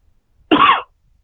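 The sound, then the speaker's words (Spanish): One short, sharp cough, a single loud burst standing out against near silence. “¿Quién tosió?”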